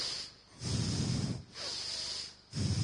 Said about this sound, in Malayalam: നല്ലപോലെ ശ്വാസം എടുക്കുക, മൂക്കിൽ നിന്ന് ശബ്ദത്തോടെ എടുക്കുക,